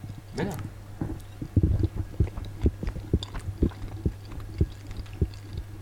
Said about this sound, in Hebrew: אתה נותן ביס בסלמון?